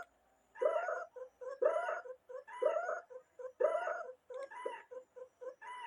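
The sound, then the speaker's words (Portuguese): A domestic cat meows repeatedly in a steady rhythm, with several long harmonic calls separated by short clipped sounds, forming a beat-like pattern. “minha gata miando”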